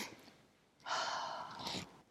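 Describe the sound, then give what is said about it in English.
A long, steady mouth exhale lasting about a second, part of a relaxation breathing exercise of two sharp nose inhales and one long exhale. Fairly loud and breathy against otherwise quiet, faint breathing. “So it's sort of taking two quick, sharp intakes of breath and then one long exhale. So two sharp intakes of breath through your nose, one long exhale through your mouth.”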